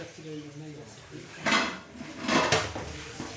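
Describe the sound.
Dishes and cookware clatter in a restaurant kitchen, with two louder bursts of banging and rattling over a low background of faint voices.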